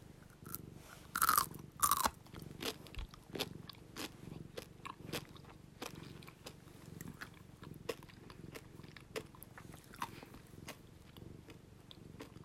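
Someone eats a gummy pretzel snack, with many quiet, crisp crunching bites and chewing clicks in an irregular rhythm. A few louder bites come near the start.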